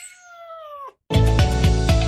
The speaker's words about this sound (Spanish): puedes llevar a casa a un mejor amigo adoptando a uno de nuestros gatitos.